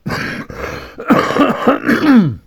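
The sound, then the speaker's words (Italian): Rough throat clearing and coughing: several loud, harsh bursts with groaning, voiced edges, coming in uneven succession with brief gaps between them and no talk. “chiedo scusa, purtroppo sapete, ho la tosse”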